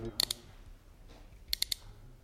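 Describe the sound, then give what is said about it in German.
Dry metallic clicking of a revolver drum cylinder being spun: two short groups of a few rapid clicks, separated by a quiet pause. “Ich drehe also jetzt den Trommelzylinder. Bitte halten Sie ihn doch hier ans Mikrofon, damit es alle hören können. Ja, gut. Ich drehe nun den Trommelzylinder ein paar Mal herum.”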